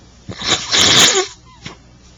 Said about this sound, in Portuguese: a minha gripe não está boa ainda, eu tenho uns intervalos aí para espirrar, limpar o nariz, essa coisa toda.